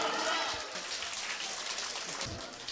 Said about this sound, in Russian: Эти аплодисменты вам! Сводный хор зрителей! Ура!